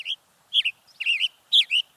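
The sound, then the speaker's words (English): A male western tanager perched in a Douglas fir gives a few sharp, high chirped phrases, some doubled or slurred, in an uneven rhythm and heard alone. “A male western tanager chirps loudly from the branch of a Douglas fir.”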